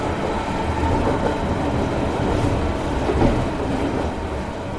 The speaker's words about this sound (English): I step up into the royal blue 1920s Pullman carriage, and in an instant, I'm aboard the most opulent locomotive in the Americas.